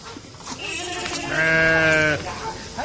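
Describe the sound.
A sheep bleats once in a loud, drawn-out, wavering cry about a second long, with fainter rustling noise before and after.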